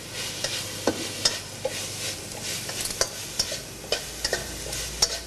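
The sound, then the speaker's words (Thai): Stir-frying of holy basil leaves with dried chilies and red and green peppers in a pan: a steady hiss of sizzling oil broken by many sharp spatula scrapes and clicks at an uneven rhythm, with no voices. “ใช้เวลาผัดอีกเล็กน้อยนะครับเราก็จะได้กะเพราพริกแห้งกะเพราโบราณของเรานะครับ”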